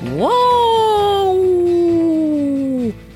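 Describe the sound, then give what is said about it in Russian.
A voice imitating a wolf howl: one long howl that sweeps up sharply, then holds and slowly sinks for nearly three seconds before breaking off. “Все, я теперь тоже буду как волк. Имей в виду, дядя Кузя, что если я завою вот так,”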